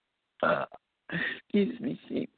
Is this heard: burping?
yes

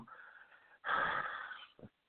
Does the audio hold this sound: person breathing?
yes

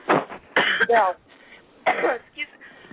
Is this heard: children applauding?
no

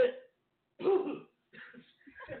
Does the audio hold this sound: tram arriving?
no

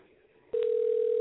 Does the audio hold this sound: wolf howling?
no

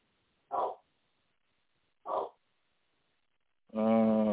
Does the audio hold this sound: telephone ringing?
no

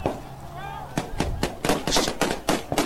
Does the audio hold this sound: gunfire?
yes

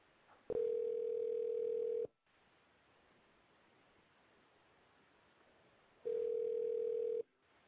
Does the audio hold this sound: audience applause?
no

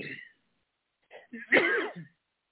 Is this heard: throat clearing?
yes

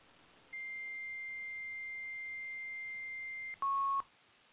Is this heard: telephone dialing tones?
yes

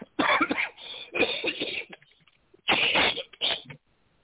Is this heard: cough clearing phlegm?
yes

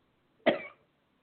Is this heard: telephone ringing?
no

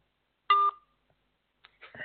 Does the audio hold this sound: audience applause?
no

